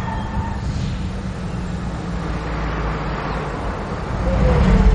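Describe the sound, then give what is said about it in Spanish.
An SUV is driven into a parking lot with a steady, low engine rumble and road noise that swells louder near the end. “Bond sube al coche. Lo lleva al aparcamiento.”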